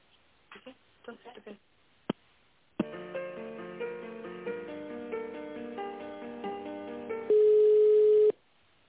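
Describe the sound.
Telephone call being transferred: a few faint voice sounds and a click, then an electronic melody plays over the line, ending in a loud, steady tone about a second long.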